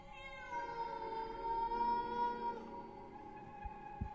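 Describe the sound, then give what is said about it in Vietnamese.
A cat gives one long, plaintive meow, a drawn-out tonal cry that slowly fades, followed by a couple of soft low knocks; quiet throughout. “Lâu lâu nó kêu lên một tiếng, đến xót cả ruột.”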